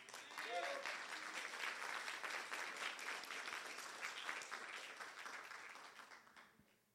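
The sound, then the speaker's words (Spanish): Applause from a church audience, a dense and continuous wash of clapping that holds steady for several seconds before tapering off toward the end. “Si le va a aplaudir, apláudale.”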